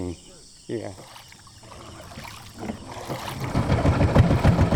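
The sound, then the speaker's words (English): Engine drone of a wooden outboard boat motoring along a peat canal of tannin-brown water, rising from a quiet start to a steady, pulsing low rumble that grows louder through the second half. “Manata steers a wooden outboard down his canal toward Gaung River, cutting through water brown from the tannins in the peat.”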